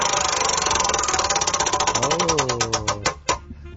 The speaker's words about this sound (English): Spin that wheel.